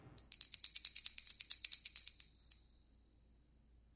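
A small bell rung in quick repeated strikes, giving a bright, high, metallic ringing that then holds as a single tone and fades out alone.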